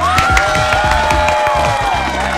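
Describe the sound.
Crowd applause and cheering, steady and loud throughout, with whistle-like tones above and a rhythmic low thumping underneath.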